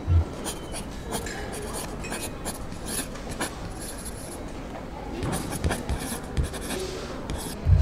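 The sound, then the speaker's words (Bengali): A pen scratches across paper as an address is written down at a hotel desk, many quick strokes and rubs running steadily, with a few low thumps near the start and end. “অবশ্যই anything for Feluda লিখে দিচ্ছি”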